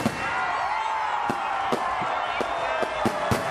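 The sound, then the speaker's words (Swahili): Fireworks burst over Kampala at midnight on New Year, several sharp cracks and pops rising over a steady crowd roar. “Anga ya jiji la Kampala ilisheheni fataki punde tu ilipotimia saa 6 kamili”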